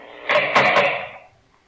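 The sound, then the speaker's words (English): Prison cell door being opened: a rough, noisy scraping rattle lasting about a second, then fading away into quiet. “guard, open the cell door.”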